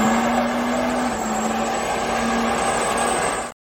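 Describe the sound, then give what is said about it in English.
A diesel engine revs with a steady, loud roar and a sustained droning tone, holding level for a few seconds before cutting off abruptly. “Got the diesel cranked up. Matter of fact, let's just go ahead and hit it one time for the”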